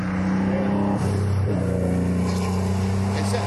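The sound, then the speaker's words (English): A modern Porsche engine revving with a loud, gruff, steady harmonic drone. Its pitch shifts abruptly around the middle before settling again. “That sounded a bit gnarly, didn't it? That looks like a modern Porsche.”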